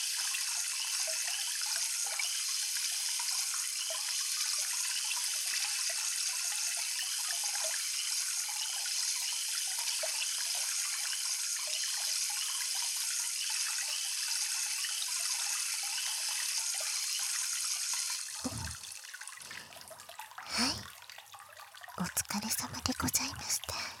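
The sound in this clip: Water pours and runs steadily at a hot spring as a loud, continuous hiss. It cuts off near the end, leaving a few brief, uneven bursts.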